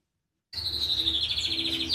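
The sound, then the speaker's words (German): Birds chirping in an aviary with a cockatoo. The quick, high chirps start abruptly after half a second of silence and keep up at a fairly faint, even level. “In der Vogelvoliere streckt Eva Maria Sum, einem Kakadu Nelson, einen Kürbiskern her.”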